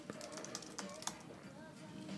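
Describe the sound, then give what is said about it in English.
Computer keyboard typing in short, scattered key taps, soft and uneven, a few sharper clicks standing out over a steady low background. “Listen to me type away.”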